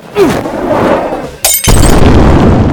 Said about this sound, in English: I stuff the rag down the throat of the bottle. I light the rag. Eat this! I chuck the bottle.